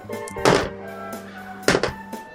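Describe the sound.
Dice clatter as they are rolled for a shooting attack in a tabletop game, a few hard clacks and knocks scattered over a steady tonal hum.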